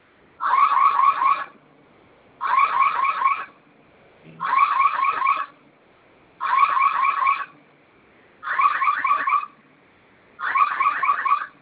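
A home security alarm system sounds in six regular bursts. Each is a loud, high-pitched warbling electronic tone lasting about a second, separated by short silences, repeating steadily and heard alone.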